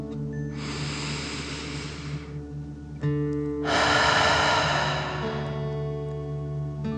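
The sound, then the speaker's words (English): A slow, deep breath in and then out during a guided relaxation exercise, two long airy rushes separated by a pause over soft sustained music tones. “Fill up your belly. Deep breath in and out.”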